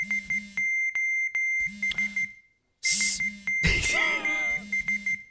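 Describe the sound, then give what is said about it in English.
An electronic cell phone ringtone plays as repeated bursts of short, high beeps over pulsing low tones. After a brief pause, a louder chirpy, warbling flourish follows, then the beeping pattern resumes. “That is the sound of a particular cell phone ring.”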